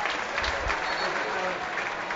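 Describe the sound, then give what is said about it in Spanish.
A football crowd at El Alcoraz gives a sustained ovation, steady even applause throughout, with a voice talking over it. “Al final, ovación.”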